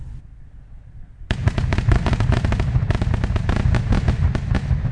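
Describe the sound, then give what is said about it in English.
Fireworks from a city display at a ballpark crackle and pop in a dense, continuous barrage of many sharp bursts, starting abruptly after a quieter stretch of low background rumble. “they went down to the ballpark where the city put on a fireworks display.”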